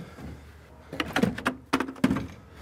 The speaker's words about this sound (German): Da ist das Guckerl, das kann man eben aufmachen.